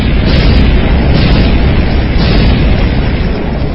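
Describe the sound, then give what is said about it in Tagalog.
Explosions on a beach as a boat blows up, heard as a loud, dense roar that runs unbroken from start to finish, without distinct separate blasts. “Sunod-sunod na pagsabog ang gumulantang sa dalampasigan ng Santa Quiteria.”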